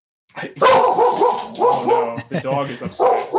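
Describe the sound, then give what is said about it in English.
Dog barking in agitated bursts, a run of sharp barks and yips mixed with people talking over them. “oh no, the dog is upset. He's mad about this take.”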